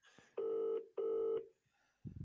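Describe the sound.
Telephone tones as a call is placed: two long, steady mid-pitched tones with a short gap between them, fairly faint, followed by quiet.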